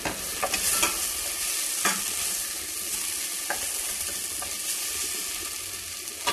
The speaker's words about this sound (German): Die Zwiebeln gehen, das geht aber auch relativ schnell. Ich habe jetzt Gut, Power runter. Aufpassen, dass sie nicht anbrennen.